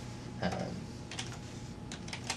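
Soft typing on a computer keyboard as a code query is entered: a few quick bursts of key clicks separated by short pauses over a low, steady background hum.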